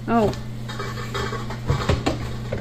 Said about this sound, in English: Oh, and there goes one of my lids.